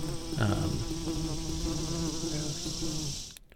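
A swarm of insects buzzing, released as a plague in a tabletop role-playing game. A dense, continuous drone of many wings holds steady and loud throughout, then cuts off abruptly near the end, with no voices over it.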